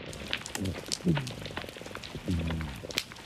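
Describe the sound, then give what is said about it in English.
A black rockfish makes a few low croaks and grunts. The short, buzzy bursts stand out over a steady crackling, clicking background. “My favorite sound is definitely the black rockfish. It sounds like this croaking, grunting.”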